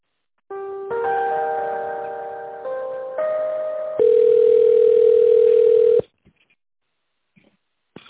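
Telephone tones sound while a call is transferred: a few steady electronic tones in sequence that shift in pitch, the last one louder and held for about two seconds before cutting off into near silence.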